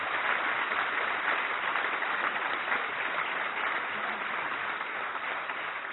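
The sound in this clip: Applause from an audience greets a professor of chant being introduced at an event. Many hands clap in a sustained, even roar that holds steady for about six seconds and fades only slightly at the end, with no talk over it.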